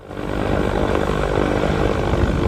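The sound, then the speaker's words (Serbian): Steady propeller and engine drone of a motor glider flying over Nikšić field, rising quickly at the start and then holding a loud, even hum with no other sounds. “Užitak je bio neprocjenjiv i tokom leta motornom jedrilicom sa pogledom na jedinstvene ljepote Nikšićkog polja.”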